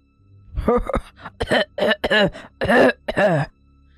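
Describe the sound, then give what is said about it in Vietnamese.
Deep, dry coughs and throat clearing come from someone pacing back and forth, as a fairly loud series of rough, hoarse bursts in irregular rhythm with short pauses between them. “lờ mờ thấy bóng ai đó đi đi lại lại, còn phát ra tiếng ho khan trầm đục.”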